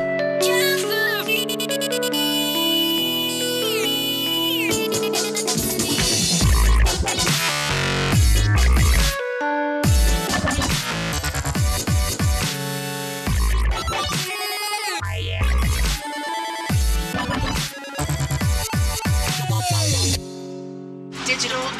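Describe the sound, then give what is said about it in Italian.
An electronic remix of the Nokia Tune phone ringtone: loud, dense music with bright melodic tones and punchy beats, broken by several brief drop-outs before it carries on. “ha vinto il concorso per il remix di Nokia Tune, la più famosa delle suonerie per telefono, sicuramente uno dei suoni della tecnologia più famosi. Ecco il risultato.”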